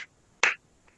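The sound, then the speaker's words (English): Light hand clapping during a self-tapping body exercise routine. One crisp, soft clap stands out in the middle, with a couple of fainter taps before and after it and near silence in between. “your wrist, the top of your hand, and then clap your hands a little bit.”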